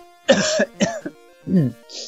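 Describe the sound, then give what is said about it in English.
A person imitates a cough with their voice. A few short, voiced coughing bursts come in a loose rhythm, with a pause before the softer final ones. “Can also make a noise by coughing.”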